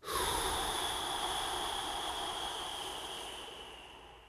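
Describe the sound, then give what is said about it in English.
Slow, measured breathing through the nose during a paced breathing exercise: one long, steady, airy hiss that starts abruptly and gradually fades over about four seconds. “In through your nose for a count of 4. Hold for 7. And out for 8.”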